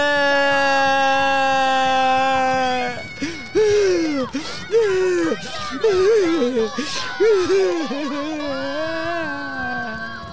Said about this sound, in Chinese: 吓到哭了出来。